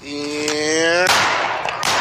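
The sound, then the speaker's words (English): Shotgun blasts from a 12-gauge firing live double-aught buckshot rounds at a New Year celebration: a few sharp, loud bursts break through steady background noise, preceded by a high, steady whistling tone. “Those are bullets, ladies and gentlemen. That's not a blank. That's a 12 game.”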